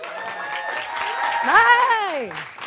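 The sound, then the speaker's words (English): A talk-show studio audience applauds as a guest walks on. A steady bed of clapping runs throughout, and a single voice rises and then falls in pitch over it partway through. “Please put your hands together for Robin Thede.”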